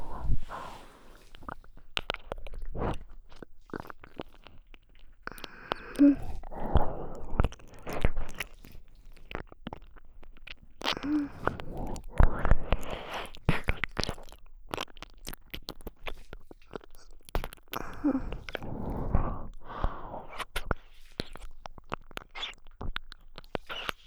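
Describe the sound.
Wet ASMR ear-eating mouth sounds of close nibbling at the ear: many soft, irregular smacks, clicks and crunchy nibbles come in quick clusters over a low, steady background, with no talking.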